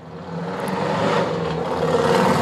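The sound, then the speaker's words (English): A motorbike drives by with a whirring engine that grows steadily louder over a couple of seconds, a faint clatter mixed into the sound. “Sorry, that's my wife. She's just driving by to say hi. Hi, honey. Hi, honey. I'm home. No, that's not her. She has a bigger bike.”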